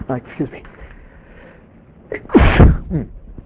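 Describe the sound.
A lecturer sneezes once during a mathematics talk, a loud, forceful burst that follows a few brief breathy vocal sounds.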